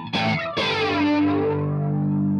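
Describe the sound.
Electric guitar played through a Carbon Copy delay pedal: a chord strikes, then a second, fuller chord rings out and its repeats smear into a long, thick sustain that slowly thins.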